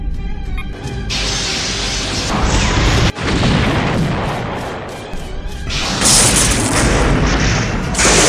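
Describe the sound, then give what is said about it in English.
Phaser fire and explosions hit a starship in a space battle, loud roaring blasts that run almost without a break, with a sudden sharp cut midway and a high, thin whine joining near the end. “Lock phasers on the target. Locking phasers on target, Captain. They're locking phasers. Raise shields. Fire!”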